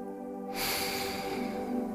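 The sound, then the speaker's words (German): A deep breath drawn in through the nose during a guided relaxation exercise, a soft, steady rush of air that begins after a brief quiet moment and continues for over a second. “Setze dich bequem hin, schließe deine Augen und atme tief ein”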